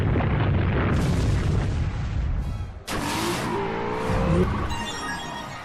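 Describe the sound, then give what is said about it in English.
Earthquake attack in a monster-battle video game: a loud, sustained rumbling roar with booming crashes, a sharp break near the middle, then a renewed rumble carrying a warbling tone. “Master Tamer Charles is about to summon Gargantuan. Alright, Gargantuan. Earthquake.”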